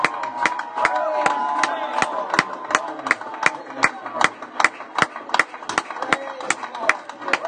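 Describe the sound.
Rhythmic hand clapping from a French-speaking church audience acclaiming God: many sharp, evenly spaced claps keep a steady beat, with voices and tonal sounds running underneath.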